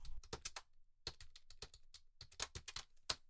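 Typing on a computer keyboard: many quick, sharp key clicks in irregular bursts with brief pauses between them, heard alone with no voices.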